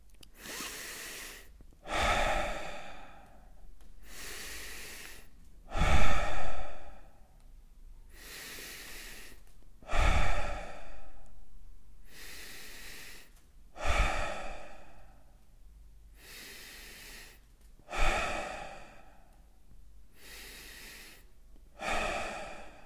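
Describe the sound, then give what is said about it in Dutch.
Slow, deep breathing in and out during a guided relaxation exercise: several long, breathy inhales and exhales in a steady, unhurried rhythm, with no talk. “We gaan 10 keer rustig maar diep in- en uitademen. Daar gaat hij.”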